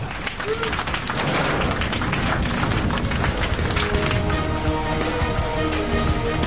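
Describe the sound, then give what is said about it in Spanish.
Airplane passengers break into spontaneous applause just after touchdown on the runway, a dense, steady patter of many hands clapping over a low rumbling background, holding at an even level throughout. “Finalmente, el avión toca la pista. Y los pasajeros aplauden espontáneamente.”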